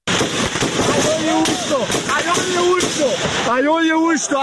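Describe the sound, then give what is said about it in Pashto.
Gunshots at a protest in Tirah Valley, Khyber: several sharp, loud cracks ring out at irregular intervals over a dense mass of shouting voices. “د ډزو دا وازونه د تیرا میدان د پیخې دي چې په مبینه توګه امنیتي ځواکونو په مظاهره چانو باندې ډزې کړې”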